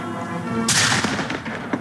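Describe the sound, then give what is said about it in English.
A sharp cannon boom from a gun salute for the horse-drawn caisson carrying former President Jimmy Carter's casket from the U.S. Navy Memorial to the U.S. Capitol, one loud report that decays over a steady background hum. “A horse-drawn caisson bore the casket of former President Jimmy Carter from the U.S. Navy Memorial to the U.S. Capitol this afternoon. There was a gun salute.”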